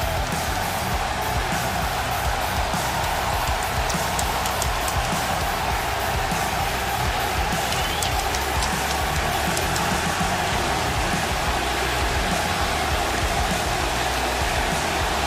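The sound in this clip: A crowd at an AEW wrestling event in New York roars in a loud, constant wall of cheering noise that stays dense and unbroken throughout, with no distinct pauses.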